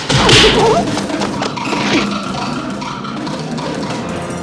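Punch in a fight between two men wearing fighting gloves: a sharp whooshing hit near the start, then a dense, rumbling wash of noise that carries on steadily to the end.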